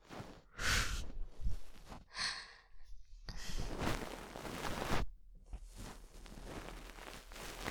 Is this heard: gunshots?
no

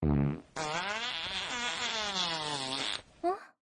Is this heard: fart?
yes

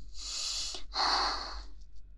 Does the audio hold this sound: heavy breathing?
yes

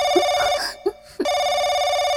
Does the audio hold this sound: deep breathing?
no

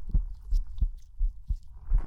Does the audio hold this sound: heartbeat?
yes

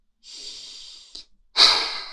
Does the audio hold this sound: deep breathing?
yes

